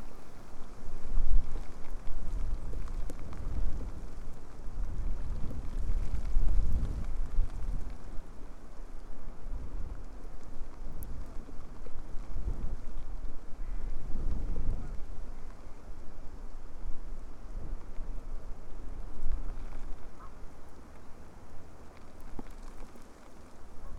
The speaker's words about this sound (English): Still raining quite heavily, and it's very windy.